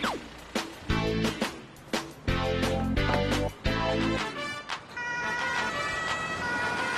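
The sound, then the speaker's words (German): Siren of an emergency doctor response vehicle setting off for a training call, loud tonal wailing with repeated sharp bursts and some vehicle noise underneath. “auf zum Übungseinsatz. Ich fahre mit Caro im Notarzt-Einsatzfahrzeug voran.”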